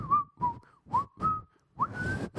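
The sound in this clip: A person whistles a short, wavering tune in several brief phrases separated by pauses, mixed with breathy voiced sounds.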